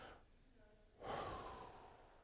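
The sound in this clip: Several people drawing a long breath together, a soft, breathy hiss that swells abruptly about halfway through and slowly fades, quiet overall with no talk.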